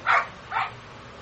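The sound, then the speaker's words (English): Dogs barking during an amateur baseball game, where three dogs are said to bark together: two short, fairly faint bursts of barking about half a second apart. “Got three dogs here, and you can hear all of them barking at the same time.”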